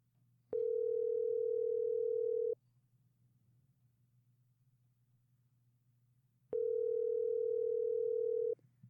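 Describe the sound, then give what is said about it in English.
Ringback tone of an outgoing telephone call ringing out: two long, steady mid-pitched tones, each about two seconds, separated by a longer silent pause over faint line hum, with no talking. “So I'm going to do the one more call just to see.”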